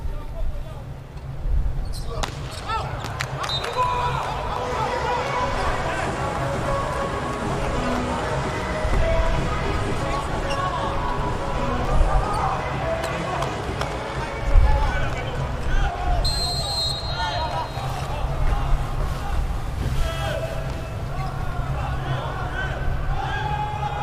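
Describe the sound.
A table tennis ball bouncing during a professional player's serve, a few light ticking bounces set under a steady crowd murmur and speech.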